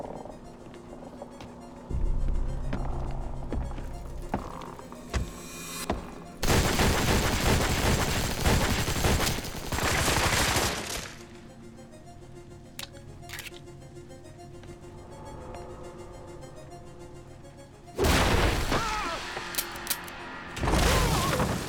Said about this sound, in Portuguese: Cuidado, você vai atirar no... Mac, eu acho que atirei.